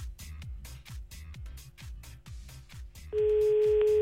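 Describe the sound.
A telephone call being placed: a long run of regular, rapid low clicks and thumps, then a steady mid-pitched tone starts and holds loudly to the end.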